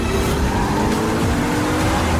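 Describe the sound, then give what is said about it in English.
An Audi car in a motorcade makes a sharp 90-degree turn at a corner and speeds down a slip road, giving a loud, steady engine roar with a sustained tonal whine. “Wax's Audi executes a 90-degree turn at a corner. It speeds down a slip road to enter a motorway system.”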